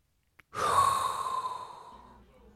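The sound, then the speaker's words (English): A single long, hot breath, a breathy rush that starts strong and fades over about a second and a half, with a tiny click just before it. “inhale a hot breath”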